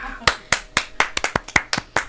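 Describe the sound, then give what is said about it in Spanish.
Hand clapping in a rock radio studio: a steady series of sharp, crisp claps at a fairly even pace, each a distinct loud smack with brief decay, and no cheering crowd behind them. “aplausos. Bravo.”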